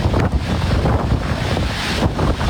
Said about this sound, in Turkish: İtalya'nın Sicilya adasına hortum vurdu.